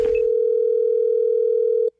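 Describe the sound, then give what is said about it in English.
Telephone dial tone as a prank call is placed to a man about a plumbing appointment. A single loud, steady pitch follows a brief burst of noise at the start and cuts off abruptly after about two seconds. “calling Mark to confirm the appointment that we have and also to kind of let him know that the plumbing service that they hired, it's more of a stripping plumbing service. It's Gavin's phone scam on the Wake Up Call.”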